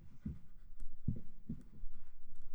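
Two people writing during a quiet pause, faint scratchy pen strokes and soft taps coming in a few uneven bursts, with no talking.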